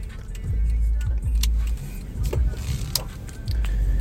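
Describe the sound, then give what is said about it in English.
A car driving and turning left on the way to a park, heard as a low, steady road rumble with a few faint clicks and knocks over it. “And driving towards Danahy. I'm going to take a left real quick.”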